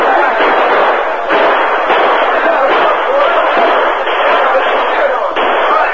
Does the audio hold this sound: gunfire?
yes